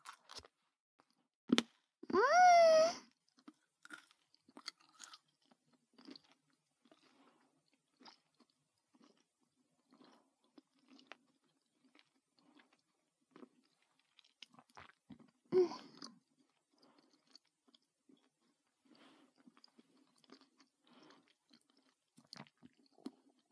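Chewing of a small, sweet piece of fruit, heard as soft, wet crunching and squishing bites with long quiet gaps and a few louder bursts.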